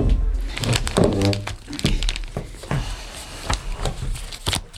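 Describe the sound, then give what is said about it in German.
Papery crinkling and rustling as photos are pulled out of a paper envelope, a run of crackling bursts and soft thunks mixed with a voice. “Er überreichte ihnen einen Umschlag mit Fotos, die Justus sogleich neugierig herausholte.”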